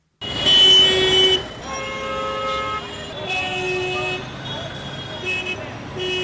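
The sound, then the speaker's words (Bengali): Hydraulic car horns blare in Dhaka street traffic: one loud sustained blast, then several overlapping tonal honks over a constant rumble of vehicles, with a voice heard alongside. “গাড়ির hydraulic horn সহনীয় মাত্রার তুলনায় অনেক বেশি, আর এই শব্দদূষণের কারণে শিশু থেকে শুরু করে প্রতিটি ব্যক্তি নানা সমস্যার সম্মুখীন”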